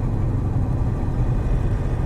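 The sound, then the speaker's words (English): Steady low rumble of a car driving along a road into thick bush, an even engine and road drone that continues throughout without distinct events. “So now I'm driving along the road into the area that I think this item is.”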